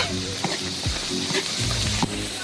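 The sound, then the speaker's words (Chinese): A steady, loud sizzle of Sichuan chili bean paste and blended pickled chili sauce stir-frying in a wok for a fish dish, broken by a few brief stirring scrapes. “酱料炒香”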